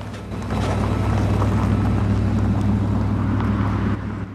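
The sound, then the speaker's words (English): A 4x4 vehicle pulls into a snowy driveway. A steady low engine rumble swells in after a moment, holds evenly, then drops away near the end. “A 4x4 pulls into the driveway.”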